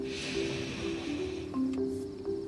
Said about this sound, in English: Let's try three deep breaths together. breathe in